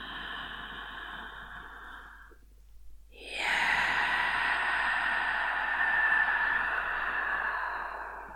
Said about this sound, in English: breathe in the good energy and say yes as you exhale now. Breathe in.